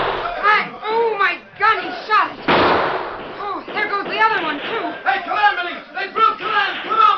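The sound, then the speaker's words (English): A single loud gunshot bursts out midway through excited, overlapping shouting voices during a Western shootout. “Stop! Wait, hold your fire. I haven't been aiming to kill. But if you don't stop shooting, we'll level our sights.”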